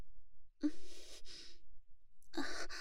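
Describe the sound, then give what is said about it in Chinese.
Close breathing from someone just behind another person: a few soft, airy breaths and sigh-like exhales with short quiet gaps between them, and no talk. “就是教练您在背后的呼吸吹得我头发 撩到脖子了，稍微有点痒。”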